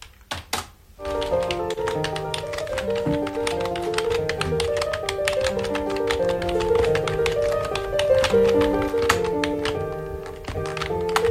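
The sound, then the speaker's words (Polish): Fast typing on a computer keyboard at a setup with five monitors: a dense, rapid clatter of many quick key taps. A few separate taps come first, and steady tonal notes run underneath. “U niego te łapki tak szybko śmigają po tej klawiaturze, że ja nie wiem, czy ktoś jest w stanie tak szybko myśleć, jak on szybko pisze”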